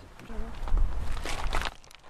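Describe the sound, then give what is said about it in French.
Footsteps of people walking uphill through garrigue scrubland on the Clape massif, a few crunching steps on rough ground mixed with people talking. “On fait quoi là On va marcher. On va monter.”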